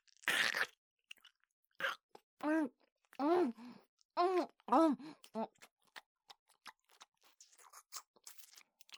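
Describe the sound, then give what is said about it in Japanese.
Biting and chewing something tough: one sharp crunchy bite opens, followed by several hummed, murmuring vocal sounds and a run of small, quiet chewing clicks and smacks. “なかなか噛み切れませんわ。”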